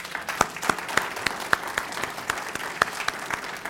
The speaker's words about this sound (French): Est-ce qu'on peut les acclamer?